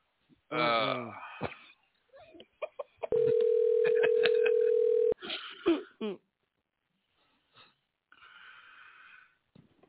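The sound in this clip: A steady, unbroken telephone dial tone sounds for about two seconds while a call is being placed, with throat clearing and brief voice sounds before and after it.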